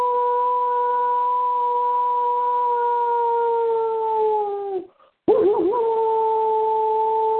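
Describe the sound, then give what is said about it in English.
A person imitating a wolf lets out a long, loud sustained howl that sags slightly in pitch, cuts off for a moment, then resumes with a wavering tone, heard alone. “Had to howl after that.”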